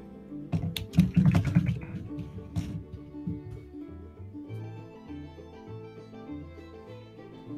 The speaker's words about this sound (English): I just typed into the chat thing, any questions?